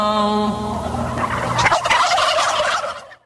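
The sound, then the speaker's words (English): A flock of about 300 turkeys gobbling as part of a music track. A sustained tonal passage gives way to a dense, rattling burst of overlapping gobbles that stops abruptly. “That was to 300 turkeys that were also totally involved on that track. They weren't just listening. They were part of the track.”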